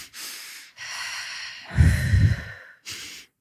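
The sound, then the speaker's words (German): A person demonstrates breathing with the quick double inhalation of strong excitement, heard as a few airy breaths of different lengths, the middle one louder and huskier, with short silences between them and no talk. “wenn wir so sehr aufgeregt sind, dass wir so zweimal schnell einatmen, dieses.”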